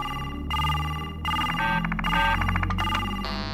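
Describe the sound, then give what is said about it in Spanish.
A phone call rings through the in-car system of a BMW iX: a loud electronic ringtone repeating in several patterned bursts, with no talk over it. “le voy a llamar por teléfono desde el BMW iX.”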